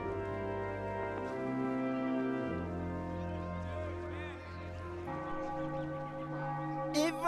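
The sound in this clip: A bell rings in sustained, overlapping metallic tones that shift pitch several times, holding a steady, moderate loudness throughout.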